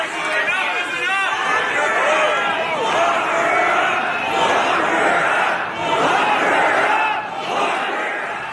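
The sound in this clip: A crowd at a political rally aimed at a provincial premier chants a slogan. The loud, continuous mass of shouting voices rises and falls slightly but stays dense throughout.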